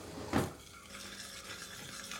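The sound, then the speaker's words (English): Spoon stirring peanut sauce of peanut butter, orange juice and molasses in a kitchen, starting with one louder scrape and then going on as soft, faint, continuous swishing. “Back in the kitchen, he starts on the peanut sauce. It's a blend of peanut butter, orange juice. A bottle of orange juice. Molasses.”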